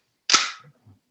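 A sharp metallic snap as the bolt of a semi-automatic rifle is pulled back with the magazine removed, a single loud crack trailing into a brief faint rattle.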